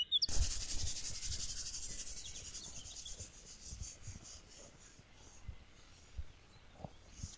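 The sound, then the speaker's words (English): Sticks are rubbed together to start a fire, making faint, irregular rasping strokes over a soft hiss, with a few quiet low knocks scattered through. “Can you start rubbing the sticks?”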